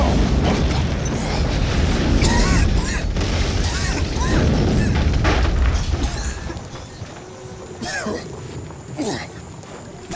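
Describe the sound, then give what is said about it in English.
An explosion in a video game as an Imperial walker crashes through a building wall: a heavy, dense roar and rumble for about six seconds, then a thinner spread of scattered debris and mechanical sounds. “wall behind me just exploded. Looks like an Imperial walker just crashed through the side of this building.”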